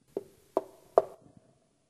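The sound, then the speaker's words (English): Three sharp, evenly spaced knocks, each ringing briefly, followed by a faint fourth tap; otherwise quiet. “How many is going to do some more knocking? Knocking with earnestness and perseverance.”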